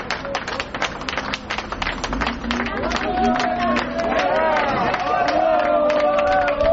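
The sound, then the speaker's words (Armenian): Citizens gathered outside clap ironically as a search of an office ends. Scattered, uneven hand claps mix with a busy murmur of crowd voices, growing slightly fuller toward the end. “Դրսում հավաքված քաղաքացիները հեգնական ծափողություններով արձագանքեցին։”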